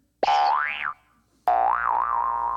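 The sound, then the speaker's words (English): A comedic clown noise sound effect: two springy boing tones, the first short and swooping up then down, the second longer with a wobbling, wavering pitch that settles at a steady level. “Play that damn clown noise again.”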